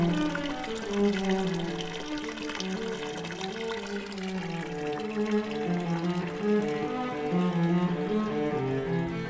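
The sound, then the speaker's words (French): Water flowing from a village fountain in the Drôme, France: a steady, soft stream with gurgling, tonal ripples that waver up and down in pitch throughout. “maintenant, c'est le chant de la fontaine de Marignac en Diwa.”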